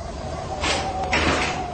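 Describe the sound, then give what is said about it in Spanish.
A tank hatch opening on a battered tank amid guerrilla fighters: two scraping, creaking bursts of noise with a brief knock between them, fairly loud and without speech. “¡Miren! ¡La escotilla se está abriendo!”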